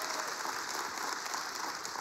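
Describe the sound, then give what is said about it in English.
A church audience applauds after a testimony. The faint, continuous clapping is made of many hands blending into a steady wash. “Give God a big hand clap.”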